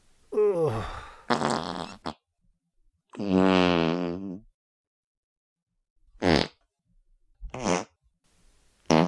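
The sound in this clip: Farts, several loud, buzzing blasts separated by silent gaps. The first few are long and drawn out; the later ones are short, sharp bursts. No talking is heard.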